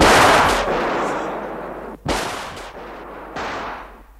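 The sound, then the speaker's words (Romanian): Gunshots fired into the air ring out as three loud, sharp blasts spaced over about four seconds, each followed by a long, fading echoing tail. “Au tras în aer!”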